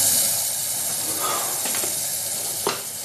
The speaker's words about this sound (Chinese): 周乙打开水龙头，让水哗哗地流出来，以防有窃听器监听